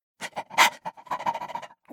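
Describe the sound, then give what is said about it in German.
A dog gives a rapid run of many short, sharp barks and panting huffs, each burst brief and fairly quiet, packed into under two seconds. “Bellte Watson und wies mit der Nase darauf.”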